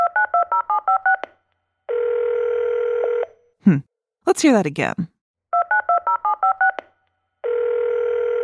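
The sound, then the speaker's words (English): Telephone sounds: a rapid run of touch-tone keypad beeps, then a long steady line tone. A voice speaks briefly in between, and the keypad beeps and steady tone repeat. “A telephone! A telephone.”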